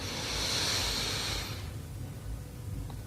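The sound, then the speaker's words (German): A deep breath drawn in during a guided breathing exercise: a steady, airy inhalation of about a second and a half that fades into quiet background. “Dritten tiefen Atemzug und atme ein.”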